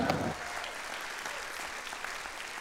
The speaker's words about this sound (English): Let's welcome my brother Dudley to the stage right now. Would you give him a big welcome?